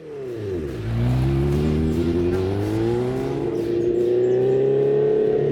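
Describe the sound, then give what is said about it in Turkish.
An old motorcycle engine runs after sitting unused for a few years, with its tank refitted and fresh gasoline added. The loud, deep drone dips low in pitch, then climbs and holds steady and continuous. “Motora bineli birkaç yıl oldu ama bu motorun sesi çok hoş geliyor. Titreşimler çok hoş ve tok.”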